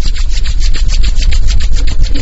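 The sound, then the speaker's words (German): Two hands rubbed briskly together during an eye-relaxation exercise, a loud, rhythmic swishing friction of many quick back-and-forth strokes with no talk. “Wir halten weiterhin die Augen geschlossen, nehmen unsere beiden Hände und reiben sie.”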